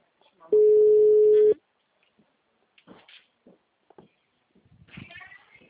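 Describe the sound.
The ringback tone of an outgoing telephone call: one loud, steady, low-pitched tone lasting about a second, followed by silence broken by faint, scattered speech.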